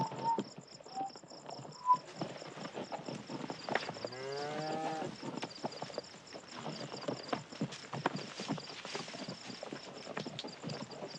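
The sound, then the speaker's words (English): Hooves of a horse clip-clop at a slow walk among a herd of cattle being kept together, a steady uneven clatter of hoofbeats with no talking. “He ambles around the perimeter, nudging back any cattle that try to wander off.”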